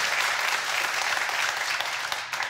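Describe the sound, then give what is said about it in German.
Dense, steady applause from a crowd rewarding a prize winner from Buchholz in der Nordheide, a continuous wash of many hands clapping at an even level throughout, with no voices on top. “Der Applaus geht zu Ihnen nach Buchholz in der Nordheide.”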